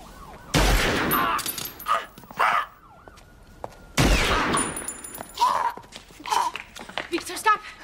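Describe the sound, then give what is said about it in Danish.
Two loud, sharp gunshots ring out in a police shooting scene from a film, a few seconds apart. Between and after the shots come shorter bursts of voices and movement. “Og så skyder politiet jo så mod... Han skyder ham i benet først.”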